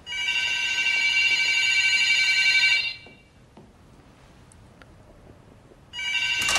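A telephone bell rings loudly as a man approaches it, a long continuous electric ring followed by a pause of quiet, then a second ring starting just at the end.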